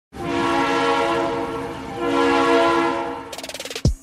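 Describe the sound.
Train horn blaring in two long, loud, sustained blasts, followed by a quick run of rhythmic mechanical clacks and a heavy low thud at the very end.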